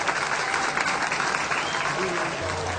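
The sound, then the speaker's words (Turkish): Wedding guests break into steady applause, a dense, even patter of clapping hands that holds throughout, with a voice heard over it. “Alkışlıyoruz.”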